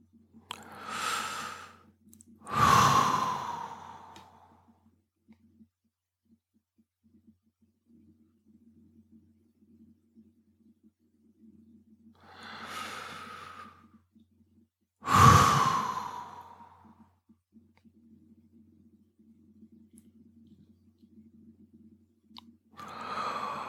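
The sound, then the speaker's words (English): Slow breathing during a breathing exercise: two pairs of audible breaths, each pair followed by a long silent breath hold, then a new breath begins at the end. A faint low hum runs underneath. “The longer the breath hold, the longer you'll sustain that feeling of stillness, openness, awareness, presence, and then resume with another breath in.”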